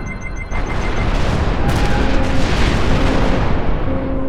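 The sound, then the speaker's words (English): A ship's guns fire a shot: a sudden loud boom breaks in about half a second in, then swells into a heavy, sustained rumbling roar that carries on steadily to the end. “Fire when ready, Mr. Borte”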